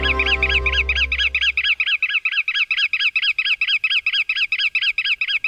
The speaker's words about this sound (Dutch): misschien wel 1000 rosse grutto's. Eerst dicht op elkaar verpakt aan de rand van het wad, na een poosje opvliegen in een grote zwerm, om weer neer te strijken en een kostje te zoeken.